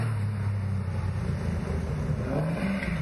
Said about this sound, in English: What have we got here? Coming down the back straight here. Porsche.